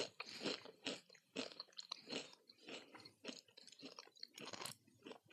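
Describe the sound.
Crunching bites of a cheesy sour cream and onion flavored chip: many sharp, crisp crackles and moist chewing squishes come in quick, irregular bursts, close and fairly loud, with no talking.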